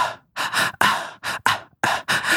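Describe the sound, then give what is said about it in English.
Rapid breathy gasps and sharp inhales, many short bursts in quick succession with brief silent gaps between them and no talk. “that's the same. But I breathe in twice.”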